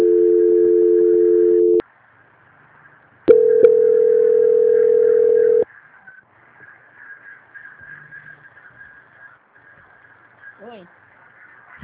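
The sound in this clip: Telephone line tones play during a call transfer: a steady hum-like tone, a short silence, then a second steady tone, followed by faint low line noise.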